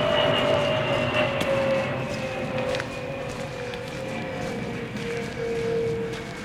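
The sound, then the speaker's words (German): An airplane crashing: a dense, steady roaring rumble with a sustained tone that sinks slowly in pitch, loud throughout. “So, da schmiert jetzt ein Flugzeug ab.”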